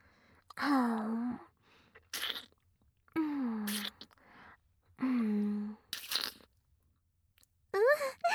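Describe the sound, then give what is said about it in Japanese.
Licking and crunching on something: a few short, crisp crunchy bursts alternate with soft, hummed vocal sounds that rise and fall in pitch, all quiet and close. “これ、舐めていいかな？かわいい。じゃあ、舐めちゃうよ。”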